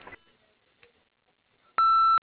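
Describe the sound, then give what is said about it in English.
A single answering machine beep: one steady, loud electronic tone lasting under half a second, sounding alone after near silence. “Please leave a message after the beep and we'll get back to you just as soon as possible.”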